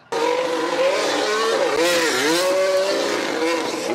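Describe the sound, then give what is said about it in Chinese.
Loud F1 race car engines at a Las Vegas street promotion with drifting cars, a sustained high-revving roar whose pitch wavers and dips midway before climbing again. “整体赛事宣传早早启动，好车赛车全部都来街头甩尾秀。”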